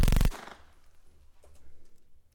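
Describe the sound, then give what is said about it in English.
Gunfire at a target, with a loud, sharp burst of shots right at the start that quickly dies away into a quiet tail with faint low rumbling afterwards. “Now, shoot that target dead center. Make sure you trace the hole 3 times. Only one hole better appear in that target.”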